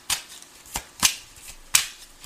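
Tarot cards being drawn from a deck: a few quiet, crisp papery flicks and slides, spaced irregularly, with no talk.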